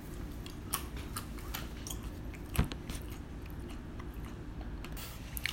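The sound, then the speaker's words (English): Faint, crisp crunching of someone chewing almonds, a few soft bites with one sharper crunch midway over quiet background hiss. “All the fucking noise you're hearing of me chewing, and that's brought to you by some fucking almonds that I bought.”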